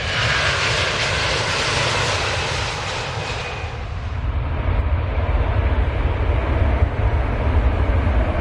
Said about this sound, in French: Accrochez vos ceintures, décollage immédiat.